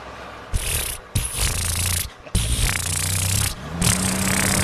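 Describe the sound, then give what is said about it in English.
A Volkswagen Beetle engine idles with a low, steady rumble and droning low tones. It comes in several sustained stretches broken by brief gaps, with no voices. “That's exactly how the Beetle sounded.”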